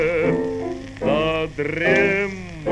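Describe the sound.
Sheep bleating as a young woman drives one along, a few loud, quavering bleats with a wavering tremble, separated by short pauses.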